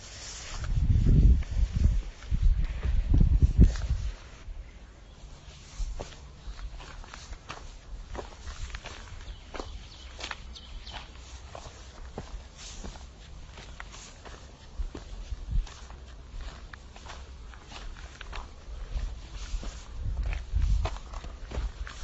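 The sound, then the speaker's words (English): Steady footsteps of someone walking on Knocklofty, a long run of many scuffing steps, heavier and louder in the first few seconds, then softer and even, with no talking. “to pause this for a little bit and just do some walking in silence.”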